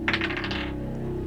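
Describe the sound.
A die rolling in a tabletop game: a quick run of bright clattering taps that thin out within a second, over a faint steady low hum.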